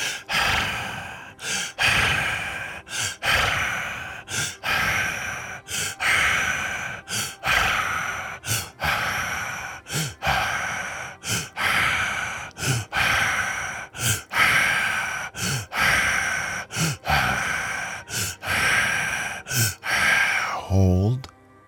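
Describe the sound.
Breathing in a guided breathing exercise: many airy, rhythmic in-and-out breaths, each lasting a second or so, repeating steadily and fairly loud from start to finish.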